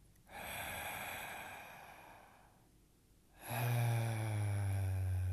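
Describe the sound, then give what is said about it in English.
A slow, deep inhale into the belly during a somatic breathing exercise, soft and airy, swelling then easing over about two seconds, followed by a louder breath with a faint tonal hum. “So take a nice deep inhale into the belly.”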